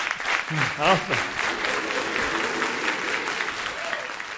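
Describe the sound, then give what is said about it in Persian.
Audience at a coaching workshop applauding two participants: sustained, even clapping with a voice speaking over it near the start. “تشویق کن جفتشون”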